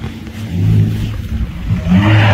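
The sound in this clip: A car engine, the vehicle seen in a TikTok video captioned about being stalked, hums and revs steadily, swelling louder again near the end.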